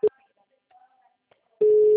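A telephone ringback tone plays while a call is placed to someone: a short tone burst at the start, a long quiet gap, then a steady, sustained low tone that holds to the end.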